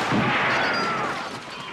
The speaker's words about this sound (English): You remember the scene at the end where Al Pacino says, you know, say hello to my little friend, and then shoots up, you know, this whole room full of people.